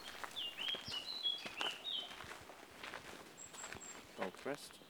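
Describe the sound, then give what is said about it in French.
An Azores blackbird on São Miguel sings a short run of high, fluty whistled phrases over the first two seconds, accompanied by steady footsteps. “blackbird. Merle prieto. Merle des Açores.”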